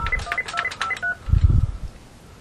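Buttons on a fax machine's phone keypad are pressed to check messages, giving several short electronic beeps of varying pitch in quick succession. A low, dull thud follows, and then the sound fades to quiet.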